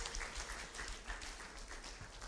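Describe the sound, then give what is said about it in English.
Faint clapping from a church audience, clapping their hands to Jesus during a prayer service. The applause forms a soft, steady, continuous patter. “Clap your hands unto Jesus.”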